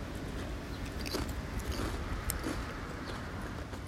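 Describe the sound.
Crunching and chewing of very thin potato chips during a tasting, with faint crisp bites scattered over a steady hiss.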